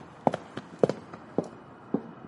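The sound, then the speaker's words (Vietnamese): Faint, uneven footsteps fall one by one on a narrow path at night, between an infirmary and a storehouse. There are several soft, spaced steps with no voices. “Linh nghe thấy có tiếng bước chân lẽo đẽo đi theo mình”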